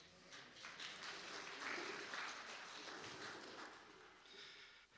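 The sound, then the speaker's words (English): Church audience applauding after a scripture reading, a faint, steady wash of many hands clapping that holds evenly for several seconds before tapering off. “Can we give God the glory for the reading of God's word today?”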